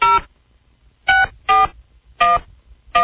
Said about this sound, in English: Trying to dial. Over the line.